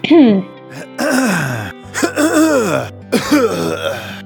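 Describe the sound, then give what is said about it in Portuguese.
Throat clearing after drinking coffee, voiced and exaggerated: several rough, groaning bursts with gliding pitch, loud and close together, with no other talk. “General Cartola tá limpando a garganta depois de ter tomado café”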